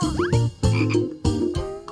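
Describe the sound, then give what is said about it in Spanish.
Frog croaking in a rhythmic series of throaty, rasping pulses, several loud croaks in quick succession with no voices. “¡Es el de una rana!”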